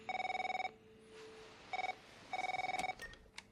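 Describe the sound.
A telephone rings with an incoming outside call: three bursts of rapid, trilling electronic ringing separated by short pauses, steady in pitch and fairly loud, with a few faint clicks near the end.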